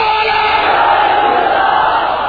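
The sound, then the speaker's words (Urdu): A crowd at a religious gathering shouts the Naara-e-Risalat slogan in unison in response to a leader's call, a loud, sustained roar of many voices held steadily for about two seconds. “زور سے بولو نعرہ رسالت”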